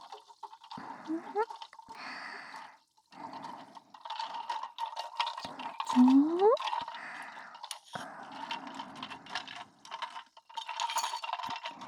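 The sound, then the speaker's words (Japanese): Ice being gently stirred in a glass, with many small clinks and light swishing of liquid that come and go throughout, fairly soft and close. “この氷を優しくかき混ぜていきますからね。”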